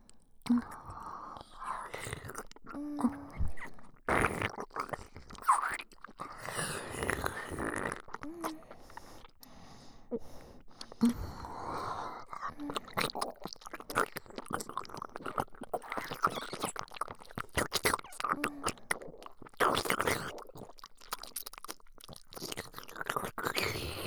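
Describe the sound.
Eating sounds of food being chewed and bitten, with many close, moist crunches and squishy clicks in an uneven rhythm throughout, under soft whispering.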